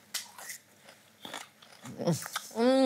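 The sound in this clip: Crisp bites and crunchy chewing of a raw rhubarb stalk dipped in sugar, several sharp crunches at an uneven pace, followed at the end by a short hummed voice.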